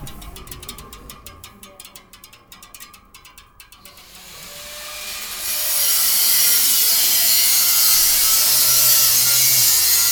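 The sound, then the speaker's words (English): Metalwork on bicycle parts in a container outside the Arnolfini on the Bristol harbourside begins with a series of rasping, scraping strokes. About halfway through it turns into a loud, steady hissing roar of grinding or welding. “In a container outside the Arnolfini on the Bristol harbour side, other members of the group are welding and grinding, sticking bits of bikes together.”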